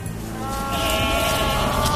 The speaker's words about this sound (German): Bei uns hören Sie, wie die Geissen im Wald im Döstal für mehr Naturvielfalt sorgen.